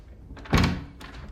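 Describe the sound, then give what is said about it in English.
A bedroom door is closed carefully, making one soft, muffled thunk that fades quickly, followed by a faint click. “Anna carefully closes the bedroom door.”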